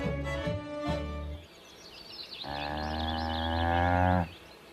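A cow moos while being milked: a short, broken lowing call, then after a pause a long, loud, steady moo with rich harmonics that stops abruptly.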